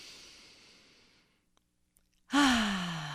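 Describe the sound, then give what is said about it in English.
A single deep, loud breath drawn in through the nose, rising abruptly after a near-silent pause and holding steady for about a second. “let's just take 1 minute to breathe in through your nose.”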